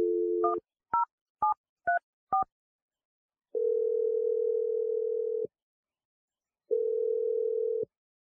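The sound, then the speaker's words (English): Telephone number being dialed: a short tone and a rapid run of keypad beeps, then two long, steady ringing tones separated by a silent gap, clean and without voices. “I'm going to dial Mike's number, and we're going to see if he answers and what he has to say for himself. Are you ready? Very, yeah. Okay, here we go. I'm dialing his number right now.”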